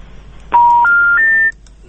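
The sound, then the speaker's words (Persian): Three steady beeping tones step upward in pitch, each held about a third of a second, sounding loud and alone on a telephone line after a call is cut off. “تلفن اینا هم قطع شده. دریم بو اورو زن معرفی که آزادی رادیو فکر میکنم که در شبکه های تلفنی مشکل پیش است.”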